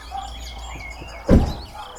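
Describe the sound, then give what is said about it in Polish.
Many birds chirp and tweet in a faint, steady high twittering that runs throughout, with a single dull thump partway through. “Patrz, ile to jest ptaków.”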